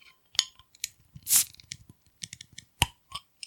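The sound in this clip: A bottle being opened with a plop during a tasting among friends: a brief hissy burst amid many small clicks, clinks and crackles, with no talking.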